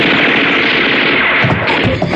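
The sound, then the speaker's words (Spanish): Gunfire from guards' weapons in a dense, loud, continuous rattle of shots that runs without a break, with no voices. “Los guardias hacen funcionar sus armas.”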